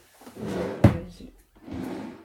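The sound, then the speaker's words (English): A drawer is pulled open. A soft sliding rumble ends in a sharp knock, and after a brief pause a second stretch of sliding follows. “Well, what should I do? I've got it in my drawer here.”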